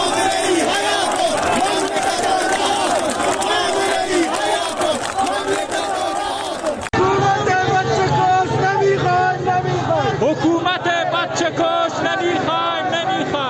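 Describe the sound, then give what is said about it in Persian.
Crowd of protesters chanting in the streets of Zahedan, Iran, at a Friday protest; loud, dense massed voices chant continuously, with an abrupt cut midway before the chanting resumes. “این صدای مردم در زاهدان در امروز بود، یکی از جمعه هایی که بعد از جمعه خونین زاهدان همچنان صحنه اعتراضات مردمی هست.”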